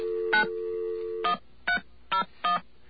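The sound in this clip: Landline dial tone, a steady low hum, followed by touch-tone dialing on the keypad. Five short, sharp beeps mark the dialing; the hum continues briefly after the first beep and stops at the second, with no talk.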